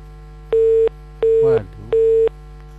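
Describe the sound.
Busy signal after a call disconnects: three even, mid-pitched tone bursts separated by short regular gaps over a low steady hum, with a brief voice fragment between the second and third.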